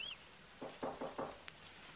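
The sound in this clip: Knocking on a door in a children's story: a few soft, muffled raps in quick succession, followed by a faint click.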